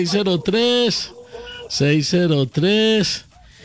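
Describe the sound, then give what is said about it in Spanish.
A rooster crows loudly in a drawn-out series of strained, arching, harmonic-rich notes broken by short gaps, ending on a long final call. “Ay, que le cantó el gallo y todo. Cantó el gallo por allá.”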